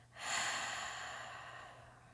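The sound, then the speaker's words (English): A single deep breath during a guided relaxation exercise: a long, airy rush of noise that swells quickly, then slowly fades over about two seconds, heard alone with no talk. “let's take a deep breath in and release.”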